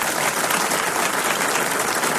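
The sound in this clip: A studio audience gives steady, loud, dense applause throughout as the guest of honour arrives, a musician with a much-awaited new album.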